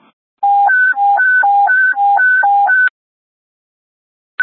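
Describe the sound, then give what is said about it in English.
A radio alert tone plays during a dispatch sound test. A loud electronic warble alternates quickly between a lower and a higher beep for about two and a half seconds, then falls silent before a brief final blip. “Alert tone 2.”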